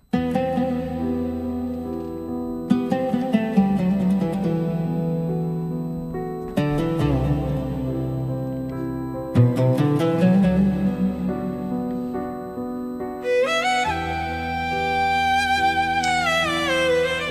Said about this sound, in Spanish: La banda sonora original suena así.